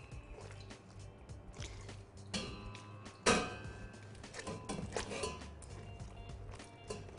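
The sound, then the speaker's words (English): Berries pressed with a rubber spatula against the edge of a china cap strainer, juice draining through; soft, faint squishing and dripping with occasional light clinks and one louder scrape. “I'm going to take a rubber spatula and just press against the edge here. And the berries will drain.”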